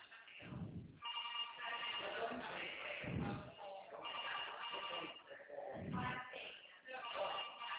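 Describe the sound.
A telephone rings during an outgoing call, a repeating ring tone heard over a narrow phone-line sound, broken by a few low thumps.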